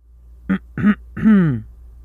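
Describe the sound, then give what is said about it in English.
A woman clears her throat in three short voiced bursts, the last one longer and drawn out, with no talk around them. “His mom did that throat clearing again, and I got a sense it was a verbal cue for her son.”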